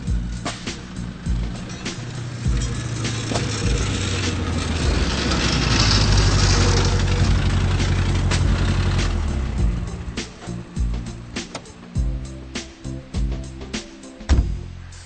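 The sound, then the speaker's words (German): A car engine with a broken exhaust runs with a deep, rough rumble that swells through the middle, then breaks into uneven pulsing bursts toward the end. “Dein Auspuff ist kaputt.”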